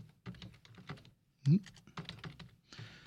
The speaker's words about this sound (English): let me pull up the list here, if I can try to type it in correctly this time.